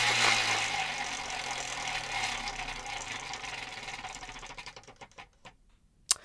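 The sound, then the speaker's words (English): A prize wheel spins with a fast, dense ticking clatter that gradually slows and fades. The clicks grow sparse and separate toward the end, and one last sharp tick closes the spin. “let's spin the wheel of bullshit, and we can figure out what's on the topic for today”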